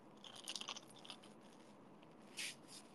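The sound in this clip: Crisp crunching as teeth bite into a crispy McDonald's apple pie, a few quick crackling bites early on and another sharp crunch near the end, fairly soft overall.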